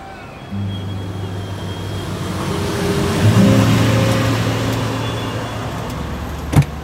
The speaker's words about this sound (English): the second the service elevator doors opened and I heard the hustle and bustle of the city streets